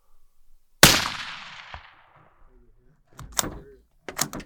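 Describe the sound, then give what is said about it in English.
A single 5.56 rifle shot fired at an impala gives one loud, sharp crack with a long fading tail, followed later by a few faint clicks and thumps. “filmed me shooting an impala. 240, 5.56, through the chest.”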